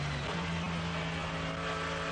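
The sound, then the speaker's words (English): GT3 race cars, among them a Mercedes-AMG GT3, accelerate out of the Carousel corner in traffic behind a slower class car. A continuous, loud engine drone with steady harmonic tones holds throughout. “Leaping out of the carousel, a bit of a traffic jam exiting behind one of the slower class cars.”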